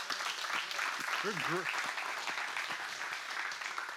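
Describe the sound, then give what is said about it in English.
Applause from a church audience, steady dense clapping that fills the whole clip at an even level, with a brief voice cutting through near the middle. “Hey, can we just give the Lord a hand?”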